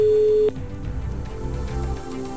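A telephone line tone sounds as a call is placed to a listener: one steady, mid-pitched beep about half a second long that cuts off into low background noise.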